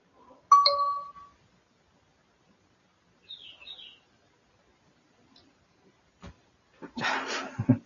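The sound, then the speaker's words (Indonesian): WhatsApp message notification sounds: a few brief, bright electronic dings separated by silence, with a short burst of other noise near the end. “Siapa sih ini WhatsApp? Kagak berhenti-berhenti.”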